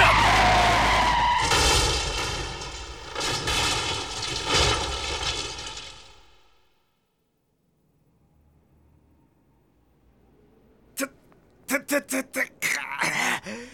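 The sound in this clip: Tires skid as a car brakes suddenly, making a loud, harsh squeal that holds for about six seconds and then fades away. After a pause, a few sharp knocking impacts follow.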